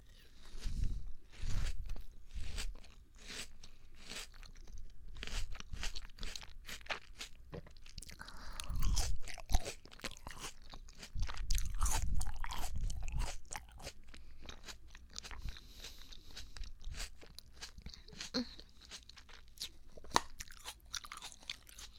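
Crunchy chewing of a small xianggua melon: many loud, wet crunching bites in uneven bursts, with brief pauses between mouthfuls and no talking.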